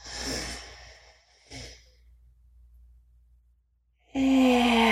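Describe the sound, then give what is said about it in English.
A deep breath drawn in through the nose during a guided breathing exercise: a soft airy inhale of about a second, a brief second sniff, then quiet before a louder sound at the end. “we're going to take a deep breath in through the nose. We hold it for a few counts and then we exhale. Here we go. In through the nose.”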